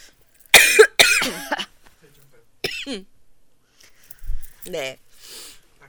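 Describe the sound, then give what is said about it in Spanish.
Two women cough, with a cluster of loud, harsh coughs near the start, then scattered fainter coughs and throat sounds, and brief voices in between. “tosimos, güey. Tosimos las dos,”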